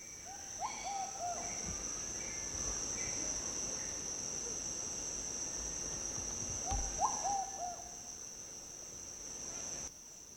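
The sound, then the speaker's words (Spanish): Doves calling in two short phrases of soft, hollow hooting notes, separated by a long pause, over a constant high-pitched insect drone. “Que acabaron de escuchar fue unas palomas que canta así, falta poco, le decimos nosotros. Nombre tradicional es Huaytafofo.”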